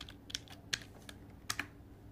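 Keys clack on a computer keyboard as a short word is typed into a document: a handful of soft, separate keystrokes at an uneven pace, with two landing close together near the end and no talking.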